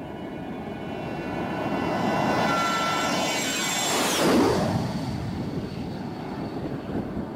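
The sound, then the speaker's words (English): Jet aircraft engines roar during takeoff, a dense continuous rumble with a thin high whine on top, swelling gradually and staying loud throughout. “When we're getting ready to take off, I let the jet engines have it.”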